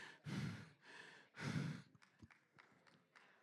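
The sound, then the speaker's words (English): A preacher catching her breath after a long stretch of preaching, with two loud, heavy, sighing breaths followed by softer, broken breathy sounds. “Let me catch my breath.”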